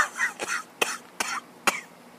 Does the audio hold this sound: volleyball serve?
no